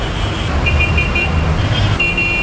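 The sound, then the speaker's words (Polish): Street traffic with cars in a jam: a steady low rumble of engines under faint, thin high tones that come and go, no voices. “a na ulicę wracają korki.”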